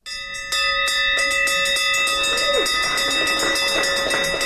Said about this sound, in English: That's the sound of an end-of-treatment bell being rung for the first time at the new 15,000-square-foot treatment facility.